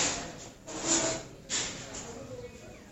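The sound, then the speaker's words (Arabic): A door is closed during a university lecture, producing a few soft, muffled bumps followed by a faint thud against a quiet background. “معلش نقفل الباب عشان بس لو في دوشة ورا.”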